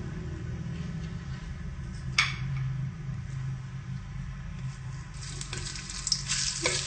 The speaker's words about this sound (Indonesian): Kita tumis sampai harum.